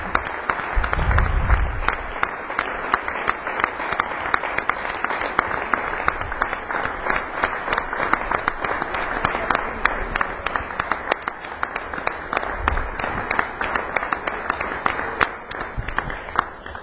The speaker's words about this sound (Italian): Credo che il calore di questo applauso sia anche indice del fatto che insieme abbiamo scritto una pagina nella storia della nostra città